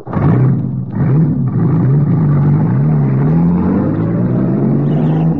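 A car engine revving as the car drives off, a loud mid-pitched drone that wavers in pitch after a couple of brief revs at the start, with no voices over it.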